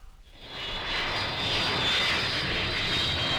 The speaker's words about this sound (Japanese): ご搭乗の皆様、あと10分後に本機は東京羽田国際空港に着陸いたします。